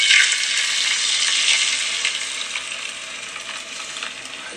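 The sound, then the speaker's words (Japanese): Beaten egg poured into a hot square frying pan for a thick rolled omelette sizzles loudly at once, a dense bright crackle that holds steady, then eases slightly softer toward the end; no talk. “ではちょっと卵を少しだけ投入していきます”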